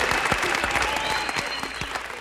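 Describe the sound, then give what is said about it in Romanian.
Applause from a studio audience welcoming a guest, a dense steady patter of many hands clapping at even loudness throughout, with faint voices and cheering mixed underneath. “Aplauze, aplauze, aplauze!”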